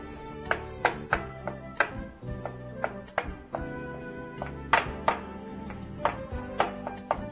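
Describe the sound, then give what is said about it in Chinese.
Knife chopping ingredients finely on a board for steamed egg, many sharp, irregular strikes of varying loudness in quick succession. “那尽量呢，我们把它切成呢，都把它剁碎啊，都把它剁碎。”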